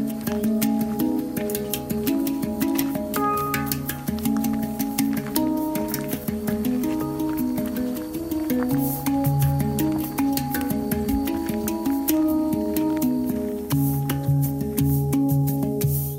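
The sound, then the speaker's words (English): A hang, a lap-sized steel drum shaped like a flying saucer, being played: soft, ringing, bell-like notes flow in a continuous melody, with many overlapping tones and a gentle sustained resonance. “That's the sound of an instrument called the hang. Imagine a steel drum shaped like a flying saucer small enough to fit on your lap,”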